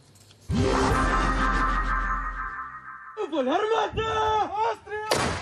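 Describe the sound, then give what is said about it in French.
Soviet-era artillery shells fired by a Ukrainian battalion near Bakhmut toward Russian positions: one heavy, sudden boom, then a long low rumble that fades, followed by talk. “des obus datant de l'ère soviétique tirés en direction des positions russes.”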